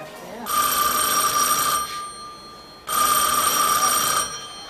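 A telephone rings twice, each ring a bright, shrill electronic trill lasting over a second, separated by a short pause, over low background noise.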